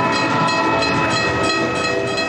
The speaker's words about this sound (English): they hopped a train like hobos